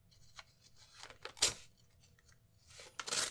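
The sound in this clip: Sealed envelope being torn open, quiet papery rips in short bursts, with a louder tear near the middle and another at the end.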